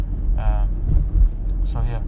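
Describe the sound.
Low rumble of a car being driven, with a steady engine and road drone running under a man talking throughout.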